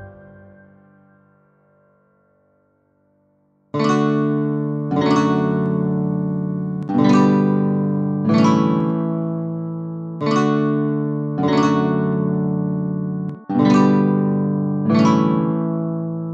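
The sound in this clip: Chords of a pop song ring out on a single instrument: a faint fading tone, then eight sustained chords struck in pairs, each decaying before the next, played alone.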